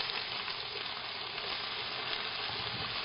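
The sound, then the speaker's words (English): Ginger garlic paste and vegetables sizzle in a pan with sautéed whole garam masala and shahi jeera while vegetable biryani is cooked, a steady, dense, crackling fry hiss that holds evenly throughout with no talk. “So once you saute your whole garam masala, add shahi jeera, okay? Add some ginger garlic paste. Add vegetables.”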